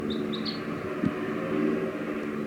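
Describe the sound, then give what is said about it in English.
Wild birds call as they fly off to the east: three quick, high chirps close together at the start. A steady low rumbling hum continues underneath throughout. “flying off to the east, and they're gone. There are the wild birds.”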